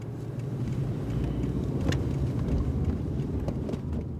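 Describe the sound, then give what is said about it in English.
A car driving around Firestone, heard as a steady low rumble of road and engine noise that holds an even loudness throughout, with no talk. “I'm driving around Firestone with anti-oil and gas activist Shane Davis.”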